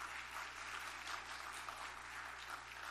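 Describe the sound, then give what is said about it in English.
An audience applauds to welcome a new staff member, a faint but steady wash of many hands clapping that continues evenly for three seconds. “And give them a hand, a good welcome.”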